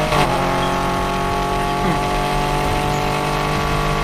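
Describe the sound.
Car engine roaring during a race in the video game Need for Speed Heat, a loud, steady engine drone with layered humming tones that holds for the whole clip without clear breaks.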